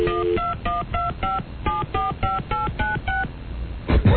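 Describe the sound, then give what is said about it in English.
Touch-tone beeps of a telephone number being dialed: a rapid run of short, pitched keypad tones in two groups split by a brief pause, then a short clunk near the end. “I don't even know what numbers I'm dialing.”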